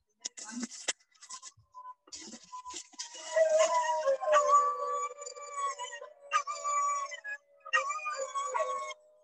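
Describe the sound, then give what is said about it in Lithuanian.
Several dogs howling at night in Thailand, their long wavering tones overlapping in a loud chorus, with a few sharp yips at the start. “Nu, kaukė šunis, haulė, vadinasi angliškai.”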